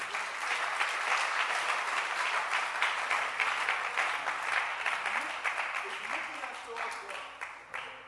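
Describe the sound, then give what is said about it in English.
Hands clapping throughout a church audience: dense, sustained applause with many overlapping claps that holds steady and then thins slightly toward the end. “So clap your hands that there's no screen.”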